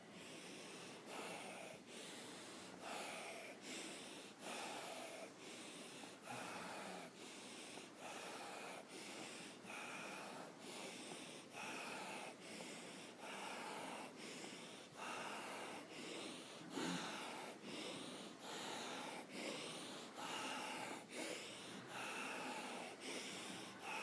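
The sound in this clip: Rapid rasping breath during a yoga exercise, forceful rhythmic inhales and exhales repeating in fast, even cycles for the whole stretch, breathy and hissing with no talk.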